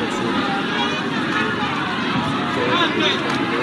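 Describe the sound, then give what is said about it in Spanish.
Crowd of protesters marching for free elections in a street in Santiago: a dense, steady murmur of many voices blending into one continuous hubbub, with no single voice standing out. “aquí sigue la gente caminando. Son muchas”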